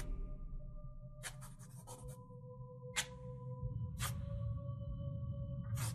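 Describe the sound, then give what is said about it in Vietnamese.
Scratchy strokes of a small piece of red brick dragged back and forth across a porch floor while drawing: a quick cluster of rough scrapes, then a few separate single strokes, faint over a steady soft tonal background. “Tay cổ mị cứ như vậy đưa qua đưa lại màu gạch trên hiên nhà Tạo thành những tiếng loẹt xoẹt”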